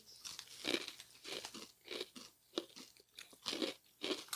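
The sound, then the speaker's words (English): Someone crunches and chews a hard, crunchy snack that tastes like corn nuts. Many faint, crisp crunches come in an uneven rhythm, with short pauses between bites. “They taste like corn nuts. They taste like corn nuts. Exactly like corn nuts. God, okay, I haven't had one of these in 40 years.”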